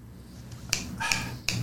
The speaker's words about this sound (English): You snap your fingers when you're trying to remember something.